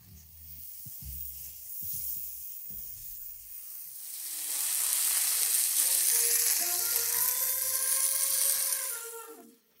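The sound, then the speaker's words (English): Thin burger patties pan-searing in a hot pan: a few soft low knocks come first, then a loud, steady hissing sizzle swells up and holds until the end. “Make sure they're thin, and they can just get seared. Chunks pan sears his burgers, flips them, then adds a layer of cheese.”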